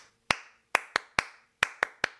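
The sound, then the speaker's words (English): Eight sharp hand claps ring out alone in an uneven rhythm, a single clap followed by quicker groups of two and three, each bright, crisp and loud with a short decay. “if I would clap,”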